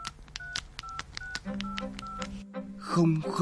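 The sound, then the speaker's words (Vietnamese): Mobile phone keypad tones beep in a quick run of many short electronic notes as a text message is typed to check lottery results, followed by people talking at the end. “Để con nhắn tin xem kết quả thế nào. Nào, xem nào.”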